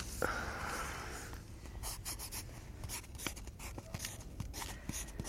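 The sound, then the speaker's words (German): A pen scratches across paper as something is written down by hand: faint, quick strokes and small taps in an uneven rhythm, continuing steadily for several seconds. “Na gut. Ich schreib's auf.”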